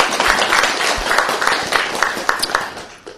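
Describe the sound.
Applause from an audience at a Buddhist gathering: dense, steady clapping that holds at an even level for the whole stretch, with a few sharper claps standing out.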